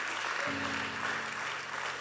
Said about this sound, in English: Come on, give him a big hand clap today.